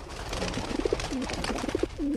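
Pigeon cooing in a few soft, low, throaty bursts that come in quick groups, with nothing else heard alongside.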